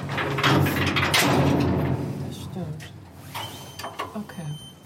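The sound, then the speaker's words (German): Mechanical rumble of a computer-driven mine lift slowly starting to move as it begins its descent into a mine. A broad, steady grinding noise with faint creaks is loud for about two seconds, then eases into a quieter, uneven run. “Fängt das Ganze an, der Computer fährt die ganze Maschine, fährt langsam an. 90 Sekunden nur.”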